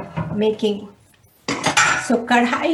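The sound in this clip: A metal kadhai, an Indian wok, is handled while making samosa, giving bright metallic clanks and rattles in a quick cluster, then a brief pause before another run of louder clattering knocks.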